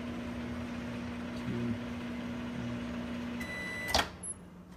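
A microwave oven on the quick start setting runs while melting an ingredient for edibles, giving a steady low hum with a faint tonal whine, followed by a sharp click near the end.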